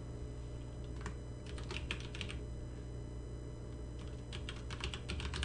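Keystrokes on a computer keyboard as a project name is typed in: two faint bursts of quick clicking separated by a pause, over a low steady hum.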